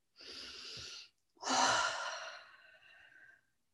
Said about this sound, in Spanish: y aprovechando la exhalación para soltar, soltar tensiones